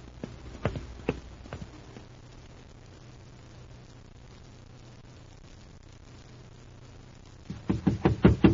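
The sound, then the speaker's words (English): Hurried footsteps of a man walking fast around a corner: a few sharp steps, a long quiet stretch, then a rapid, louder run of brisk steps at the end. “a man's coming around the corner. And from the way he's stepping it off, he's in a hurry.”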